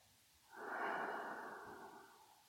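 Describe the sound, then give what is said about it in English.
A single deep, slow breath during a guided breathing exercise, a soft airy rush that swells quickly, holds, then tapers gradually, faint and alone. “Take a deep breath in and”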